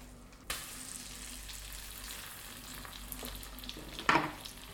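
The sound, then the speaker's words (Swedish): Fish frying in a pan gives a soft, steady sizzle and crackle throughout, with a sharp onset near the start and a brief, louder hissing burst toward the end. No voices are heard. “Nu tystnar det i pannan här strax. Nu lägger jag i fisken.”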